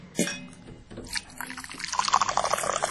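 Cold fresh water pours from a jug into a glass: a few soft knocks, then a steady splashing, gurgling stream that grows louder and busier toward the end.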